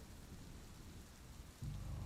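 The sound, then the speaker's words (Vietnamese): Heavy rain pours in a steady, faint hiss during a night downpour over a poor village, and a deep, low thunder rumble joins near the end. “Xóm nghèo huyện Long Xuyên, trong đêm mưa tầm tã, sấm chớp ị đụng, một nhóm người vội vàng vàng đội mưa mà chạy.”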